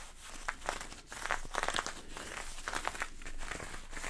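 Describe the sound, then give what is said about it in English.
A jacket's fabric crinkles and rustles as it is handled for ASMR. Many irregular, crisp bursts of crackling follow one another at a soft to moderate level, with no voices. “I literally bought the jacket for the sounds. I just thought, oh, that'll be good in an ASMR video.”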